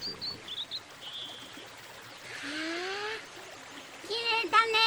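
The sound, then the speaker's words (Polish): Bird chirping in a dubbed cartoon scene: a few high, thin chirps at first, then brighter trills and a cluster of quick chirps near the end, over soft background noise. “Ładny ptaszek.”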